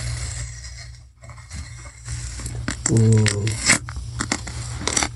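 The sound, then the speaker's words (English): Tape peeling off a box gives a raspy, crackling rip in uneven bursts. One louder, buzzing tear comes midway, with quieter scraping and rustling before and after. “You know when you like try to peel tape off and you have to get like the corner, but you have to get it right so that it actually peels off?”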